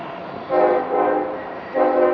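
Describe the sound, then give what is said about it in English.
Train horn blowing beside the railway track: a loud, harmonically rich chord sounding in a few long blasts with brief dips between them, over a low rumble from the train. “Woo! Listen to that horn!”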